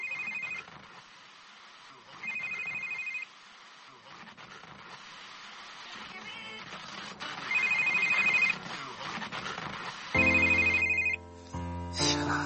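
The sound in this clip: A telephone rings with an electronic ringtone in four separate bursts, each about a second long and evenly pitched, over a faint steady background hum.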